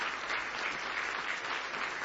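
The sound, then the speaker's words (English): A church audience applauds during a morning service, welcoming a returning family. The hand clapping is short, steady and continuous, with no voices over it. “Give them a nice hand this morning.”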